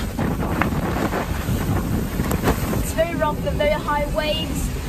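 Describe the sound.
Strong wind buffets the microphone aboard Greta Thunberg's sailboat at sea in badly deteriorating weather. The gusts roar continuously alongside the wash of sea spray and waves, loud and unbroken for the whole clip.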